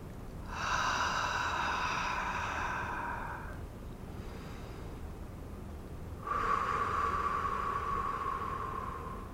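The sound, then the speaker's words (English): A deep breath during a guided relaxation exercise: a long, slow breathy inhale, a quiet pause, then a long, slow exhale, soft and unhurried with no talking. “And just relax your shoulders. Take a nice deep breath.”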